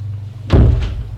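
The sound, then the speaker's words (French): A gate latch clicks and a house door opens. One short, dull knock is followed by a fainter second sound, over a steady low hum. “Le déclic du portail, la porte s'est ouverte, il entre”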